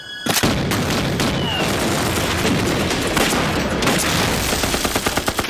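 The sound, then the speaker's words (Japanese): Gas shells fired in a battle barrage: a dense, loud, unbroken roar of overlapping gunfire and booms with rapid sharp bursts throughout. “攻撃だ。ガス弾を撃て。”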